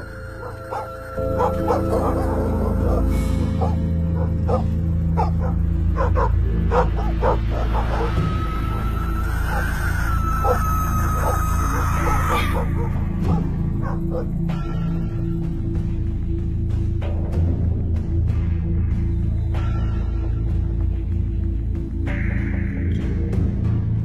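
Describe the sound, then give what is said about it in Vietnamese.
Village dogs bark and yip in a dense, continuous chorus on a dark night, with a drawn-out whine partway through, all over a steady low rumble. “Bầy chó ở trong làng tựa như cũng cảm nhận được điều gì, cứ chõ sang bên này mà cắn lên ông ổng.”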